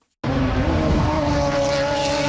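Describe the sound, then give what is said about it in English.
IndyCar race cars drive the newly built, still incomplete track in Markham, Ontario: a loud engine roar cuts in abruptly and holds a steady, high, whining note with no break, with no voices. “IndyCar drivers finally got the green light to hit the track in Markham, Ontario for the first time today.”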